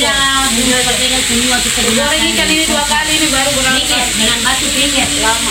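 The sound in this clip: Food sizzles and hisses steadily while cooking on a stove fuelled by briquettes made from areca nut and sago waste, a continuous frying sound under a voice talking.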